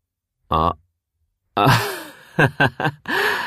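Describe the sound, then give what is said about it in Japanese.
A tired person yawns: a long, drawn-out voiced breath with a sliding tone. It comes after a brief vocal sound and is followed by a few short voiced bursts and another breathy vocal swell. “あくびしてる。寝ろよ。”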